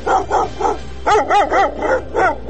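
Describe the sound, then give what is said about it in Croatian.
Stray dogs in Sarajevo bark in quick rhythmic bursts, many sharp, mid-pitched barks in two runs, loud and clear over a low background hum. “Psi lutalice sve učestalije napadaju građane Sarajeva.”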